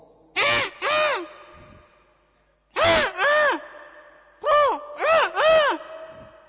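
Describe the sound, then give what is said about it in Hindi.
A human voice imitates a hoarse-throated crow cawing. It gives seven harsh, raspy caws in groups of two, two and three, each call rough and rich in overtones, with short silences between the groups. “कौवा, कौवे का थोड़ा गला बैठा है, हिमाचल का है लग रहा है मुझे, कौवा,”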